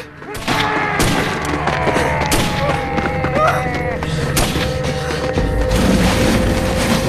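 Several sharp gunshots, fired by someone running, crack out over a dense, loud film score, the sharp hits breaking through a continuous wall of sustained music and booming low end.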